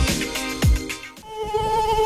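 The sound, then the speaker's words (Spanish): Flies and mosquitoes buzz inside a home, a continuous whining drone with a rough, harmonic buzz that carries on throughout without a break. “Ya llega el buen tiempo y con él los visitantes no deseados en tu hogar, las moscas y los mosquitos.”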